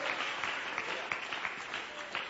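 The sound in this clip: A church audience applauds for the Lord, a dense patter of many clapping hands held at a steady level with occasional sharper claps poking through.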